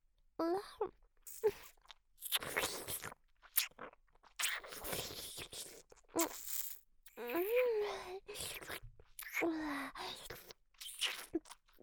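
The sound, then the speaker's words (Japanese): Quiet, close-up ASMR mouth sounds of ear-eating and nibbling give many wet, crunchy smacks and bites in irregular bursts. Soft voiced sounds come between them. “さっきみたいにお耳食べてあげる。”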